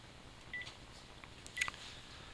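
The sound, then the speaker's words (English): Faint telephone keypad tones as a number is dialed from a caller ID list: a couple of brief, thin beeps over a low, steady background hiss. “Let's see if there's anybody interesting on the old caller ID that we could give a call out to.”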